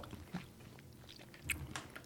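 Faint crunching and chewing as people eat crunchy snacks, a few soft bites and mouth noises with one slightly louder crunch late on, no talk.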